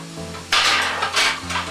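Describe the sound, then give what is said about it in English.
Onions and mushrooms are stirred in a pan, two bursts of bright scraping and rustling, the first longer than the second, over a low steady hum. “Now I'm going to give my onions and mushrooms a stir, and this way everything will blend together at the same time.”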